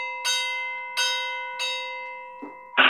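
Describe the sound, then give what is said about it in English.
Church bells ringing: three strong strikes, each leaving long sustained ringing tones that overlap, followed by two short, duller bursts near the end. “So another ringing sound would be like bells, like church bells.”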